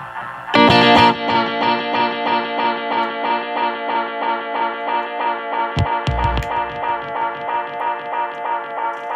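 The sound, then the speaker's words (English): Electric guitar through the flutter effect of a Tech21 Fly Rig 5 pedal: a strummed chord sustains with a steady, regular wobble pulsing its volume and pitch, interrupted midway by a brief second strum or knock. “Now I want to show you the flutter control.”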